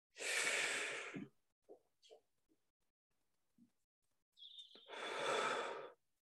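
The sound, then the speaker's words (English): Two long, airy breaths are heard during a guided breathing exercise, the second a slow, drawn-out exhale. Faint small mouth and breath noises fill the quiet gap between them. “You want to make sure that breath is nice and slow coming out though. For on a count of four.”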